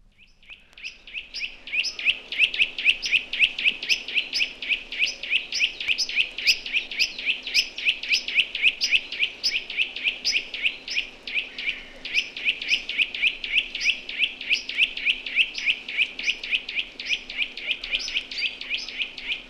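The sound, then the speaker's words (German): Blue tit song: a long, steady series of rapid, high, bright chirping notes that repeats evenly and without a break, with a clear voice and no other sounds. “Es ist die Blaumeise, die wie die Kohlmeise häufig im Winter zu den Futterstellen kommt.”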